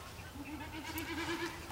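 Snipe drumming, a bleating hum made by air rushing over the bird's spread tail feathers, comes through faint and tremulous, its wavering pulsed tone rising and fading in waves with no voices.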